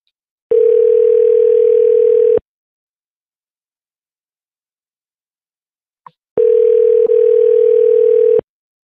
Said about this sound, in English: we're going to call the next number in the list.